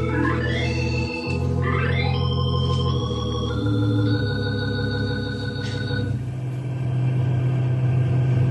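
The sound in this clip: A car being driven along a road lined with giant pines: a steady, loud engine rumble with a continuous droning hum that holds evenly for the whole stretch.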